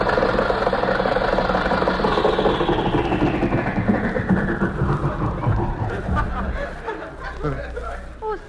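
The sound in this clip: A car engine runs as a couple drives out at night, a loud continuous rumbling drone whose higher tones slowly slide downward before settling into a lower steady hum.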